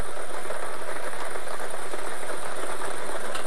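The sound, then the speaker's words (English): Loud, continuous whooshing roar of a lottery draw machine spinning its numbered balls for a daily lottery game; a dense, unbroken noise that stays level from start to finish, with no talk over it. “We're playing our Daily Millions game for Wednesday, the 30th of September, 2026. Let's get these balls spinning.”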